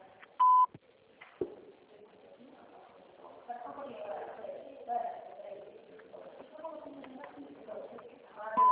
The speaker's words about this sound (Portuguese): Por favor, deixe seu recado após o sinal.